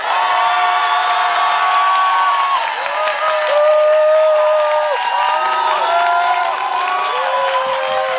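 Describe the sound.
A live audience at a public recording cheers loudly, whooping and shouting in many overlapping voices, with clapping blended into a sustained wall of crowd noise.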